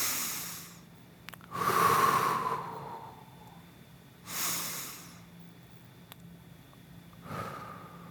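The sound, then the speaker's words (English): Slow, deep breaths drawn in and let out during a guided breathing exercise: a few long, airy rushes separated by quiet pauses, with no talk. “I want you to take 3 deep breaths. Ready? Here we go. In. Out.”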